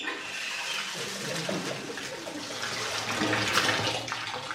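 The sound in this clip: Hot water runs into a bathtub with a steady, broad hiss and splash. It holds at an even loudness throughout, with slight surges and no voices.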